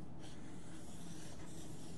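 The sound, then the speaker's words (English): Faint, steady scratchy rubbing as a circle is drawn, continuing without a break for about two seconds with no voices over it. “So I want to draw a circle here and here. Oops, I went a little too far.”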